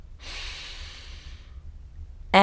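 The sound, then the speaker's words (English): A deep breath, drawn as one long, soft airy rush lasting over a second before fading into quiet, with a voice starting abruptly at the very end. “I want you to close your eyes for a second and take a deep breath.”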